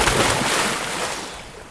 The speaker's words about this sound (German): springen von einem Floß ins rund 3,5 Meter tiefe Wasser.